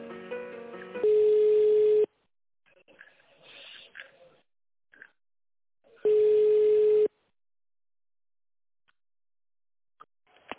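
Telephone line tone while a call is being connected: two long, steady, loud beeps a few seconds apart, with faint line noise and brief muffled sounds in between.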